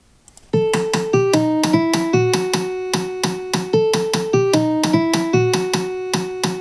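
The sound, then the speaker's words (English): A jazz melody plays against a 2-3 clave rhythm: crisp percussive clicks in an uneven grouped pattern sound alongside pitched notes that step down and hold. The descending phrase repeats twice after a brief quiet start. “And then with the 2-3 clave, which he's saying only lines up once, it sounds like this.”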